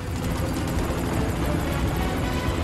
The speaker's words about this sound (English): Suddenly, the helicopter lifts off, hovering above the road.